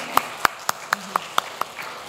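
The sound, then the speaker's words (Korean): Handclaps greet two missionaries at a church gathering: a short run of crisp, evenly spaced claps in a steady rhythm, the last one fainter. “귀한 선교 사역을 하신 우리 두 분 선교사님께 먼저 우리 박수를 한번 보내드릴까요?”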